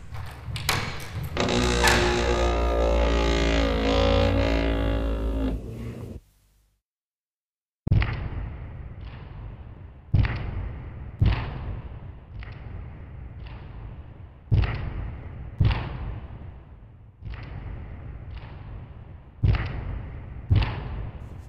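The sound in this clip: A heavy castle gate is opened with a long series of deep, evenly spaced thuds and booming knocks, each one loud and decaying quickly. A sustained tonal passage comes before them.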